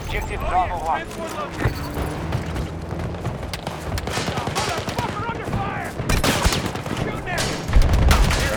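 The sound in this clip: Helicopter gunfire in a video game, rapid bursts of automatic shots crackling in quick succession while a man talks over the action, ending in a heavier low rumble.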